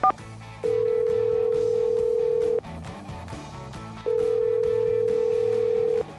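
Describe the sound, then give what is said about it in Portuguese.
A telephone on a studio line rings out after being dialed, with two long, steady ringing tones separated by a pause. “a linha do estúdio, a linha que vai para o ar o conteúdo, mas com certeza vocês não vão se importar de ouvir a conversa, né? Não tem nada para esconder, vamos lá, discando aqui”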